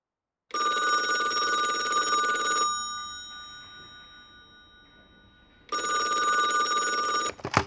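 A telephone bell rings in two long, loud bursts. A quiet stretch of fading resonance separates the first ring from the second.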